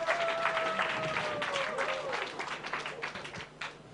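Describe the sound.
Audience applause at a song contest final, steady dense clapping throughout with a whistle-like tone and some voices mixed in, moderately loud.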